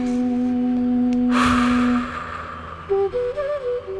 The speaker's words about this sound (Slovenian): Zapremo oči in vdihnemo.